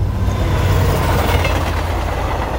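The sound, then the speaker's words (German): A train on the Neisse valley railway crosses the river between Zittau and Görlitz, giving a loud, continuous rumble of rolling wagons and engine that stays steady throughout with no voices. “Die Neiße-Talbahn. Sie überquert den Fluss zwischen Zitter und Görlitz viermal.”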